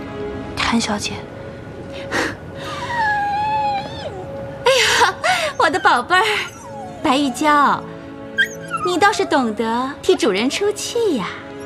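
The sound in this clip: A pet dog whimpering and whining loudly in many high, wavering cries that swoop up and down in pitch, separated by short pauses and growing busier toward the end.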